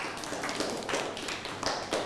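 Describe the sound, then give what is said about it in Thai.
Applause from classmates clapping for a fellow student in a classroom, a dense, fairly faint patter of claps that stays continuous for about two seconds. “นั่งลงครับปรบมือให้เพื่อน”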